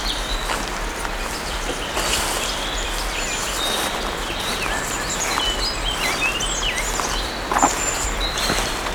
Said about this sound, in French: Sur le chemin, quelques gazouillis d'oiseaux.